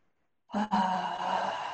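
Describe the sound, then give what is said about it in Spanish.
A deep breath drawn in through the nose during a guided breathing exercise. After brief silence, one long, steady, airy inhalation starts abruptly and continues to the end. “Te invito a tomar algunas tres respiraciones profundas, inhalando por la nariz y exhalando por la boca. Puede ser que cuando inhales subas los hombros también. Una vez más, inhalamos.”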